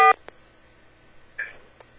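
Electronic keypad tones from star and four pressed on a telephone line: a loud short beep at the start and another brief tone later, separated by faint clicks over low line hiss.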